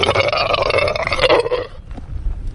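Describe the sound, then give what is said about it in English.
A wild sea lion on the rocks of North Seymour Island gives a loud, rasping, belch-like roar that lasts under two seconds, then trails off into fainter, rough grunting sounds. “I'm amazed to see sea lions basking on the rocks only feet away, paying little attention to me. A particularly bold one approaches. It stops and makes a startling noise.”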